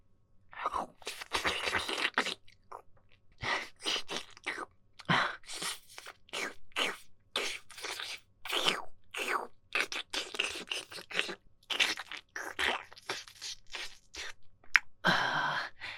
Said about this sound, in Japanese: 入れる前に、綺麗に舐め取ってあげるね。